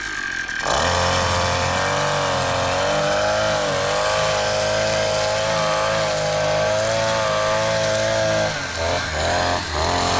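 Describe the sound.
A brush cutter mows the last blades of grass, its engine starting abruptly into a loud, steady, high whine that wavers slightly in pitch and dips briefly a couple of times near the end.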